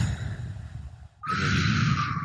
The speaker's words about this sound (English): take a deep breath in, and then you purse your lips like you're like a straw.